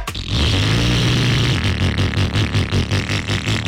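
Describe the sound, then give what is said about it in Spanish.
A motorcycle engine runs loudly, with a dense, rough noise that settles into a steady pulsing, sputtering rhythm after the first moments. “Si la moto le suena así, es tiempo de pasar por AKT, ¿eh?”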